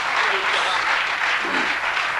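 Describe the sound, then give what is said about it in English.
Applause from an audience at a sermon, a dense, steady wash of many hands clapping that holds at an even loudness for the whole stretch. “And when you get on the woman's case, you get a half an applause. Let's applaud again.”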